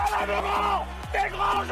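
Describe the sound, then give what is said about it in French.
US Bergerac rugby supporters chant at the Stade Gaston Simounet, a loud, rhythmic burst of low voices singing together in unison, brief and full. “C'est le chant des supporters. Ils ont vibré, crié, soutenu leur club.”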